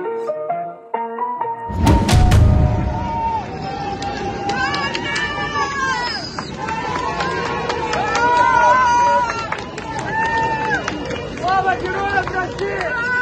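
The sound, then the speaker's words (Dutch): Residents of Rostov cheer and chant the name Wagner as fighters drive out of the city, a jumble of raised, shouting voices over crowd noise. “je hoort hier de bevolking van Rostov juichend de naam Wagner skanderen. Ze zeggen ook leven de helden op het moment dat ze wegrijden uit de stad.”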